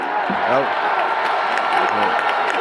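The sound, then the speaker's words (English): Football fans in a stadium cheer and roar after players are booked for a goal celebration, a dense, sustained crowd din with a voice speaking over it. “I think we're cheering them getting a booking for the goal celebration.”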